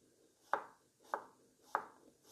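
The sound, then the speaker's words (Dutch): A knife slices trimmed, washed radishes into rounds with four crisp cuts at a steady, even pace, each a sharp snap followed by a short fade, with no talking. “Ik heb de boven- en onderkantje van de radijsjes afgehaald, even gewassen. En nu snijd ik ze eh, in plakjes.”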